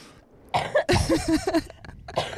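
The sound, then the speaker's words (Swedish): A fit of coughing: a few loud, rough bursts in quick succession with brief gaps between them, and no speech. “Ursäkta det här hjärnhostandet.”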